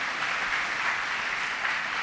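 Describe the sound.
Sustained audience applause welcoming a speaker at a Sathya Sai youth gathering: dense, steady clapping that holds at an even level throughout, with no voices standing out.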